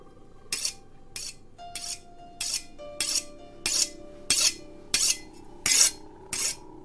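A butcher's pig-sticking knife is sharpened back and forth, giving a steady run of many short, rasping metal strokes at an even pace. Faint metallic ringing tones linger between the strokes.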